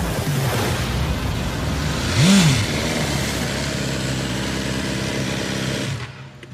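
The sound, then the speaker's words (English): A BMW S1000R motorcycle engine roars steadily while riding, with one brief rev that climbs and drops early on before the drone settles and cuts off abruptly at the end. “riding the wheels off the S1000R. In fact, you can probably hear him in the background right now.”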